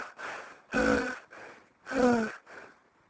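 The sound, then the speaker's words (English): A voice imitates someone blowing their breath hard: a series of forceful, breathy puffs and huffs, two of them louder and longer with a strained, groaning edge. “And then she went away and walked across to me and blowed her breath very hard like this.”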